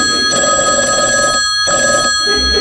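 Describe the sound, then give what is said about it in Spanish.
A telephone bell rings with a bright, steady metallic trill, broken by brief dips, and no voices over it. “en Nueva York comienza a sonar el teléfono”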